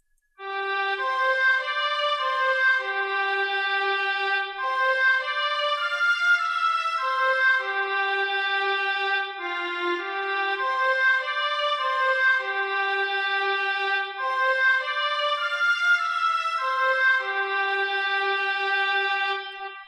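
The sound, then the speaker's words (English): Oboe, flute an octave above, and violins play one melody together in unison and octaves, with smooth sustained notes rising and falling over about twenty seconds, with no voices. “So basically I have it in the oboe again, but I also give it to the flute an octave above it, and I give it to the violins. So those instruments together, the oboe, flute, and violin, sound like this.”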